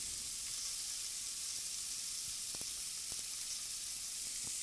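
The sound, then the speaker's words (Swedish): Oyster mushrooms fry in butter in a hot pan with a faint, steady sizzling hiss, broken by a few sharp little pops and crackles. “Nu ska vi gå ner med ostronskivlingen i pannan. Du får gärna ta en näve. Ja. Och den är riktigt varm här nu. Så det är bara att köra på.”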